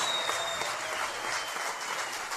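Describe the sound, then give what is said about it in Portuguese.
Audience applause welcoming a percussionist and singer to a music circle event: dense, continuous clapping at an even level throughout, with no voices over it. “Para os aplausos de vocês.”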